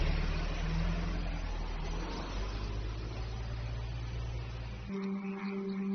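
A car engine runs as the vehicle drives off: a steady, low rumble holds for several seconds, then shifts abruptly to a thinner, quieter tone near the end.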